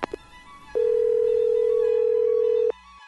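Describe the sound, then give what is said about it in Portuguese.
A telephone line tone after dialling: one steady, unbroken hum that holds for about two seconds and then cuts off abruptly, with faint clicks before and after it. “Deixa eu plugar a linha aqui. Discar. Tá chamando.”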